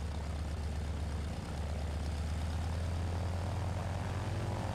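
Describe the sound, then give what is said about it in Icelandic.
Propeller aircraft engines taking off from water give a loud, steady droning roar with a deep hum underneath. The roar stays unbroken apart from one brief dip, and no one speaks. “Hljóðið frá mótorunum heyrðist inn í bæinn og menn fóru að skima í kringum sig.”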